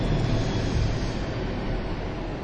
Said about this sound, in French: on va laisser passer l'avion.